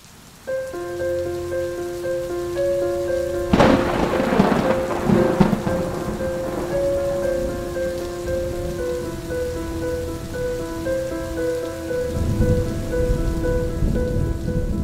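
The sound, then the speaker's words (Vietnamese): Thunderstorm with steady, hissing rain and a sharp thunderclap that rolls into a long, low rumble, followed later by another deep rumble, all beneath a sustained musical drone. “Tiếng sấm vang rền trời, từng ánh chớp như tia lửa điện xẹt ngang, vẽ những đường chằng chịt.”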